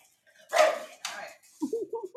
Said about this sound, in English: They still haven't realized where you are. Still barking at James. Can you just talk to the dogs?